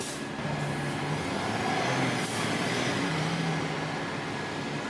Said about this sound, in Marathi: चला, माझी गाडी आली. मी आता बसनेच जाईन.